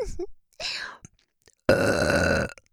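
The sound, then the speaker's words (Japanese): A series of loud, vulgar burps made close to the ear: short, rough bursts separated by pauses, ending in a long, sustained, gravelly belch. “元からの連続ゲップ しかも下品で大きいやつ”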